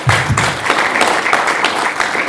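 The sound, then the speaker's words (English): An audience applauds a discussion panel at the close of a session with steady, dense clapping throughout, and a few sharper individual claps stand out above the wash. “Let's clap for the panel.”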